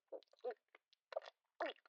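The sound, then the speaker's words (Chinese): Faint chewing of food by a person eating, several short, irregular crunchy and moist bursts separated by brief silences. “对啊，我在吃东西，被你听出来了。”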